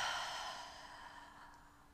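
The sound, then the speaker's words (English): A soft open-mouth exhale during a breathing exercise: a breathy rush of air that starts fullest and gradually fades, heard alone and faint. “Inhale through your nose. Open mouth, exhale.”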